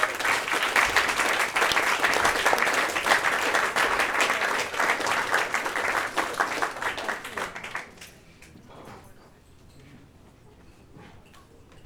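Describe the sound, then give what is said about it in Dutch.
Audience applause at a presentation event: dense, steady clapping for about eight seconds, then thinning to faint scattered claps over quiet background noise. “applaus alsjeblieft.”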